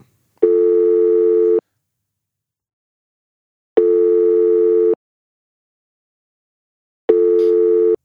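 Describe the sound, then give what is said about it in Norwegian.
Three ringback tones play during an outgoing phone call. Each is a steady, buzzy tone about a second long, separated by gaps of roughly two seconds of silence, with no talk. “Ring, ring. Vi prøver det.”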